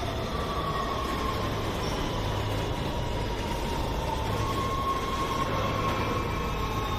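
A train slowing down rumbles along the rails in a continuous low roar with a thin, high wheel squeal running over it, steady and unbroken throughout.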